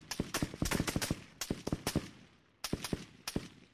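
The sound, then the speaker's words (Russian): Bursts of gunshots ring out from deep in a courtyard by a woodshed. Many sharp cracks follow in quick, irregular succession, then a short lull, then a few more shots. “Вдруг из глубины двора, где стоял дровяной сарай, донеслась дробь выстрелов.”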